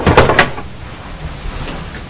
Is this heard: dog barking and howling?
no

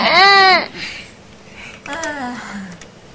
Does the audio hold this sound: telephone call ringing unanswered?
no

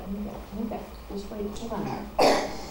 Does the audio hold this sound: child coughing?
yes

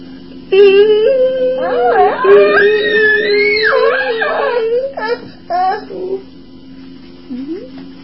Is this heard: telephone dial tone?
no

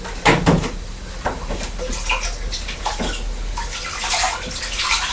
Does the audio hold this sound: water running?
yes

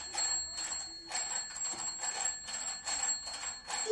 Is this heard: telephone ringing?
yes

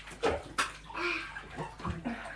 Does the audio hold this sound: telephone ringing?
no

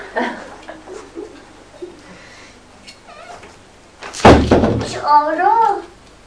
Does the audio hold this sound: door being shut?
yes

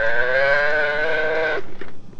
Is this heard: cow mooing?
yes

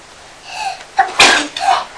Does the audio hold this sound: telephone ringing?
no

